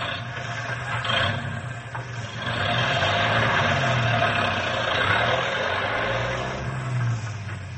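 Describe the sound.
Truck engine driving off slowly: a low, steady rumble that swells after a few seconds and then holds at a sustained drone.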